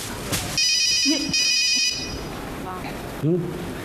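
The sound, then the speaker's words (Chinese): A phone ringtone goes off on an early morning trip to take out the trash, playing steady high electronic tones in two sustained bursts, with people talking around it. “突然就来个电话”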